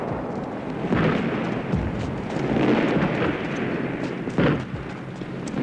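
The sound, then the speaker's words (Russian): Artillery shells falling and exploding across a field in a World War II battle scene with Soviet tanks advancing: a heavy, continuous rumbling roar with a few sharper booms rising above it. “Немецкие солдаты бегут от падающих снарядов.”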